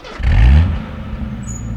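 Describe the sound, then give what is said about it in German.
Jeep engine revving as the vehicle turns and drives off, with a brief rising surge that settles into a lower, rumbling drive. “Jetzt wendet er den Jeep, fährt ein paar Kilometer zurück und dann in den Weg zum Mühlenhof.”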